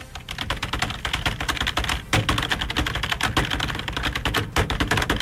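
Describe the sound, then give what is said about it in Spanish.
Rapid typing on a computer keyboard, done only to make noise, forms a loud, dense clatter of keystrokes that runs without a break, with no voices. “Ni estoy escribiendo nada, nomás para hacer ruido, pues.”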